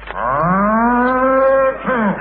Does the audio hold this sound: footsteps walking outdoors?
no